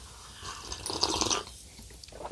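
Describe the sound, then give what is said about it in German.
Coffee being sipped from reusable plastic cups, a soft wet, crackly mouth sound lasting about two seconds that swells in the middle and then trails off, with no talk over it. “Wir trinken übrigens Kaffee hier nebenbei, ne? Ja. Selbstverständlich. In althergebrachten mhm. Mehrweg-Plastiktassen.”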